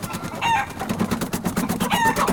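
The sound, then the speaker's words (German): Excited chickens on a perch cluck over a busy, rustling background, with two higher, drawn-out calls standing out. “Von den Hühnern. Die flatterten ganz aufgeregt auf der Stange herum.”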